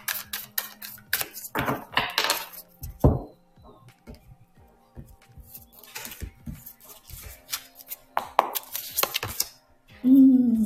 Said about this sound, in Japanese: オラクルカードの方でアドバイスカードを引いていきます。